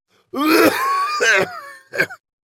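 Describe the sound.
A flushed, red-faced man gives a dry, raspy cough and clears his throat in three rough, voiced bursts. The first burst is the longest and the last is short and sharp.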